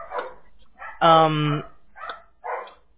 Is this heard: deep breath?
no